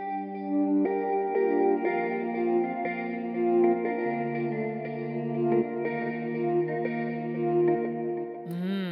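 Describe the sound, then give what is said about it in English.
Main pad synth built from breath and vocal samples: sustained, richly harmonic chords that shift several times over a slow, smooth rhythm, ending in a short rising sweep. “I have this sort of like main pad synth that sounds like this.”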